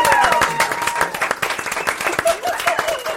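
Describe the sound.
A live audience welcomes a guest with a round of applause, dense clapping that holds steady throughout.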